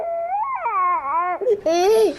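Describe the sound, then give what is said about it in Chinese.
A young child fusses and cries in a few drawn-out, wavering wails that rise and fall in pitch, loud and high, with brief catches between them. “现在孩子闹得我没法跟你说话，我挂了。”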